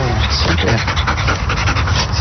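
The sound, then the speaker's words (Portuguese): A Belgian Malinois search-and-rescue dog pants rapidly and loudly in a steady run of breathy huffs that continues without a break. “Uma cadela da Companhia de Intervenção Cinotécnica. Cobra cai é uma cadela belga malinois.”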